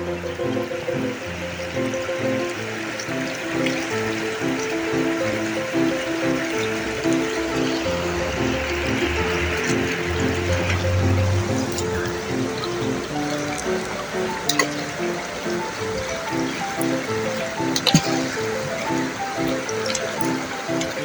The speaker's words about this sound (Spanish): yo tengo un arroyo al lado de mi casa, entonces se escucha el ruido del arroyo y es hermoso